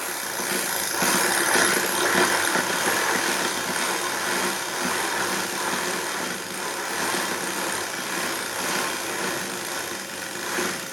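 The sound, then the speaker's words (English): A flipper clicks against the spokes of a bicycle's back wheel in a rapid, continuous clatter that sounds like a small idling motor, holding fairly steady in loudness throughout, with no talking. “The sound of a flipper on back wheel of my bicycle reminds me of beautiful memories that I had as a child riding my bicycle around our house. The clicking of the flipper would get louder as I rode faster.”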